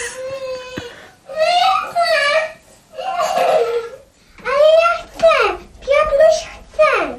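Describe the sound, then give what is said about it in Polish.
A child cries desperately in a radio-drama sound effect, a series of wailing, sobbing bursts with high, falling pitch contours separated by short gasping pauses. “Jakieś weselsze też powinno być. No jest jeszcze płacz rozpaczliwy. Tak. Zastanawiam się, czy to jest jeszcze właśnie bardziej tak rozpaczliwy niż może ten.”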